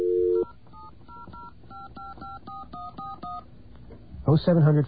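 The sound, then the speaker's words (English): Telephone keypad dialing tones: a brief steady tone opens, then a rapid, evenly paced run of short two-note beeps, and a burst of voice follows at the end. “If you dial, hopefully this isn't blocked.”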